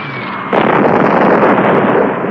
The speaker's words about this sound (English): 3, 2, 1. Now! Bombs away!